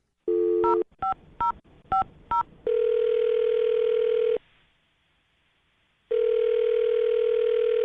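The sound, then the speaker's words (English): A telephone is being dialed: a short run of quick touch-tone keypad beeps. Then come two long, steady ringing tones separated by a stretch of silence. “we're going to dial her number right now”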